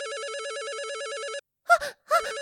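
An office telephone rings with a warbling electronic trill that lasts just over a second, then stops and is followed by brief vocal sounds.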